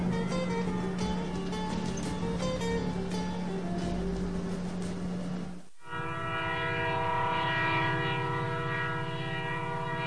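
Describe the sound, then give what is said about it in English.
A train runs on a line beside a straight road, its loud, sustained horn blaring over a rail rumble. The tone breaks and changes briefly midway, then continues steadily. “A train line runs parallel to the straight road Thelma and Louise are driving along.”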